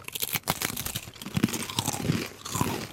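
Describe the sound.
Crunching and chewing of Kneks original crispbread crackers being bitten into: many sharp, crisp, brittle crunches in a busy, uneven rhythm, fairly loud and with no talk.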